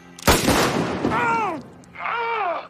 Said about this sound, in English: shoots him in the arm and he drops the bag.